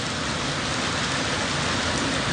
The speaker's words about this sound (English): Thank God for the rain.